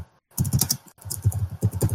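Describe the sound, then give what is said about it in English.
Typing on a computer keyboard: many quick, crisp keystrokes in uneven bursts, with a short pause near the start and another partway through, with no talking. “I'll type it in chat here. Yeah, just type it in chat.”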